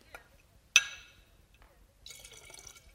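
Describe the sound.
A sharp glass clink, then a soft liquid gurgle as leftover vodka is poured back into a bottle. The pouring trickle starts after a short pause and runs quietly to the end.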